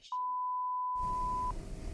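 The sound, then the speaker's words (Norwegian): A telephone ringing tone heard while placing a call: one long, steady electronic tone lasting about a second and a half, then giving way to a hiss of line noise. “Vi bare prøver å ringe til ham, og så ser vi hvordan det går her.”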